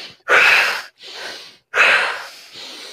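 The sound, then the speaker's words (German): Deep breathing in and out, two full breath cycles, each a loud, airy rush of air followed by a softer, longer breath, separated by brief silences, with no talking. “Also wirklich den Bauch, die Rippen, den Brustkorb füllen und aus. Und zwar, ich weiß nicht, ob man meinen Atem im Mikro hört. Also ich mach mal mit.”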